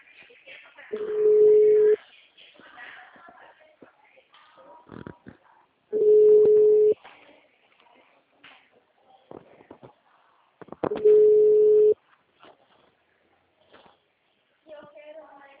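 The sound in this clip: A telephone ringback tone sounds three times while a call is placed, each a steady low tone of about a second, evenly spaced, with a person talking between the rings.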